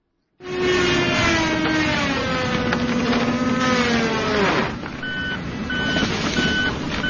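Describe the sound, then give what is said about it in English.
Chainsaw and truck engines during tree cutting at a historic golf course in Washington, D.C. A loud, steady engine drone slowly sinks in pitch, then drops away as a repeating reversing beep sounds over a lower rumble. “That's the sound of chainsaws and trucks yesterday at East Potomac Park here in D.C.”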